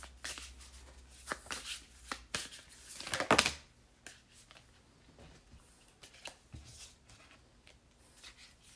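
Tarot cards being shuffled and pulled make a soft, quiet rustle and riffle. One louder flurry of shuffling comes near the middle, then lighter slides and taps follow as cards are drawn.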